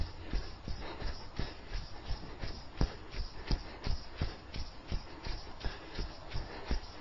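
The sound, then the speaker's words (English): Squelchy footsteps as a person walks briskly through mud during outdoor interval reps. The wet, sucking steps repeat in a steady rhythm throughout, many in quick succession, with no talk. “I'm walking into the squelchy zone.”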